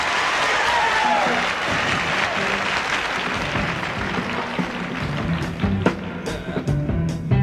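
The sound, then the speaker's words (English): Crowd applauding to welcome a band on stage, a broad roar of clapping and crowd noise that gradually thins out, with a few sharper, louder hits breaking through toward the end. “The band, so let's have a fine welcome for them.”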